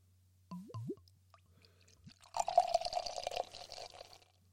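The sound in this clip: Wine being poured into a glass: a short, gurgling splash of liquid lasting under two seconds, fairly quiet, after a near-silent start.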